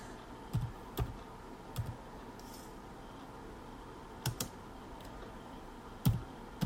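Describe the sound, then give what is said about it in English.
Faint typing on a computer keyboard: a handful of sparse, irregular key clicks over a low, steady hiss, with no talking. “I'm just actually looking up, you can hear me typing away”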